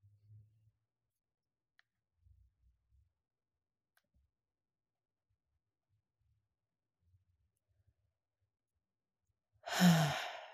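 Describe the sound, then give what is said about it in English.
A single deep, breathy inhalation taken during a calming breathing exercise. It comes near the end after a long stretch of near silence broken only by a few faint clicks, and is loud and airy. “Take a deep breath in.”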